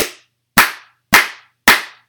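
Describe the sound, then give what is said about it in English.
Four sharp hand claps, evenly spaced about half a second apart, each a crisp snap with a quick decay, heard alone against silence. “Give me four claps. Two, one, two, four claps, go.”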